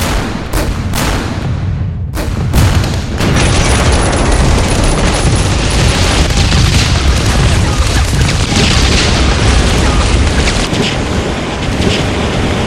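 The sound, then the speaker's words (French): A heavy battlefield bombardment with shell explosions, flamethrowers and machine-gun fire. A few sharp booms open, then a dense, loud, continuous roar of blasts and crackle fills the rest without pause. “Le lendemain midi, c'est un terrible bombardement, des lance-flammes, des tirs de mitrailleuses.”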